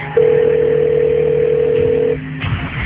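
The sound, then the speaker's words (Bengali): A phone line's call tone while ringing someone: one steady, mid-pitched tone lasting about two seconds that then cuts off, over a low, constant background hum. “না না, পাঠক পাঠককে phone দিই আগে।”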